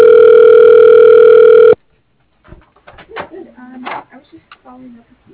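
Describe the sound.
A telephone ringback tone sounds while a call is transferred to an extension: one steady, loud, buzzing tone that holds briefly and then cuts off abruptly, followed by people talking.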